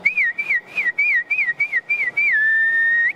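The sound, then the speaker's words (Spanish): Human whistling used to call cattle, such as a milking cow, to the corral: a run of short warbling whistle notes followed by one long held whistle that lifts at the end. “A veces el ganado se acostumbra al silbío, ¿no? Al silbío.”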